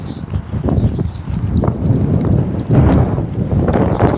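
Wind blowing against a microphone: a loud, continuous low rumble with uneven gusts swelling and fading throughout.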